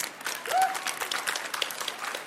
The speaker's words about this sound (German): Und nochmal herzlichen Applaus für Katharina.